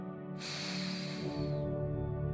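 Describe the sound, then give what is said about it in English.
A deep breath drawn in, a soft airy rush lasting about a second over a quiet, steady musical drone. “Let's go ahead and take a deep breath now.”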